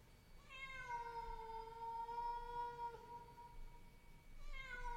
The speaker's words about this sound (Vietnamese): Tiếng mèo kêu mỗi lúc một to.